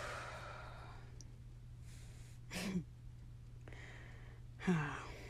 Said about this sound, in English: Let's all take a deep breath in together and a deep breath out.